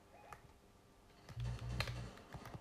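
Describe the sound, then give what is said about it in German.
Keys clacking on a computer keyboard during video gameplay, a quick, quiet run of clicks over a low hum, with no talking. “Ich liebe es, hier so in die Tasten zu drücken”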